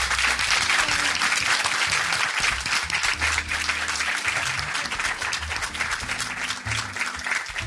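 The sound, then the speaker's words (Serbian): Audience applause at a live event: loud, dense clapping that stays strong from start to finish with only slight swells in level. “Jedan ogroman veliki aplauz za Jelisavetu Seku Sablić i Mirku Vasiljević.”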